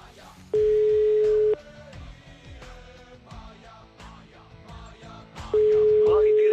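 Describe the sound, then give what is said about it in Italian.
Telephone line tone while a number is dialed: two long, steady, mid-pitched beeps of about a second each, several seconds apart, over continuous louder background sound. “fatemi quel telefono per favore, mi fate quel numero, fatemi quel numero.”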